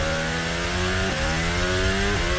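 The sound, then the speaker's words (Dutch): A Formula 1 racing car engine screams loudly at high revs, its pitch climbing and then dipping sharply twice at gear shifts, over a dense, rough roar. “het geluid van George Russell. Bortoleto in de pits.”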